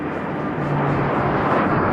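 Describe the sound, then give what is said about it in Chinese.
A formation of fighter jets, J-8F, J-10 and J-11 aircraft, flies over with a steady broad roar that swells slightly louder partway through and then holds. “迅捷而来的歼击机梯队分别由16架歼 8F 飞机、15架歼10飞机和12架歼11飞机编成。”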